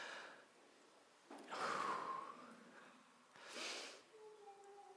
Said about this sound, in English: little kindergarten exercise, like, deep breath with me.